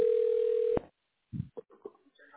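A steady telephone dial tone as a call is being placed to a tax relief line. The tone holds evenly, then cuts off with a click, followed by a few faint, short sounds.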